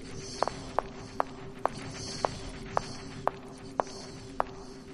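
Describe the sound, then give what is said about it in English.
Footsteps of a character walking forward in a video game, nine even, evenly spaced steps in a steady rhythm over a constant low background hum. “Walking forward a little bit. I'm going north.”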